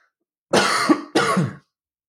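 A man coughs and clears his throat: two loud, rough bursts follow in quick succession, each lasting about half a second, with a harsh, throaty rasp and no talk around them.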